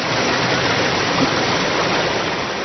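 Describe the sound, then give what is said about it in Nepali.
River water flowing in the Bagmati River in Kathmandu: a steady, dense rushing and hissing with no pauses, no voices and an even, moderate level throughout. “हुन पनि त्यति बेलै ढल बग्ने बागमतीमा अहिले पानी बग्न थालेको छ।”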